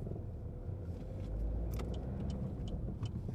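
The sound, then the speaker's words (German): Faint road noise of a BMW i3 car passing: a steady low rumble and tyre hiss that swells slightly midway, with a few light clicks on top. “Oh, ein BMW i3. Schöne Karren eigentlich.”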